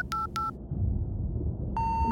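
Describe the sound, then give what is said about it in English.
Telephone keypad tones as a landline dials emergency services: two short beeps in quick succession, a pause filled with low rumble, then one longer steady tone. “In an act of futility, he dialed the emergency services.”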